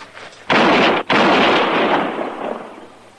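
Gunshots ring out during an armed arrest outside a cabin. Two loud, harsh blasts come a moment apart, the second trailing off in a long, slowly fading roar, with no voices.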